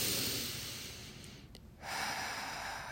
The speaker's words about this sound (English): take deep, deep breath